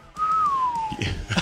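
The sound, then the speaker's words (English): A person whistles a single sustained note lasting about a second that drifts slowly downward in pitch, followed by a few soft, brief knocks and rustles. “The appropriate whistle.”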